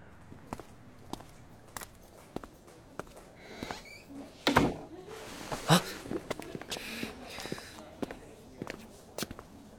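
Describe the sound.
Footsteps cross a hospital ward toward the door, a run of regular, soft taps with a few heavier bumps and shuffles midway.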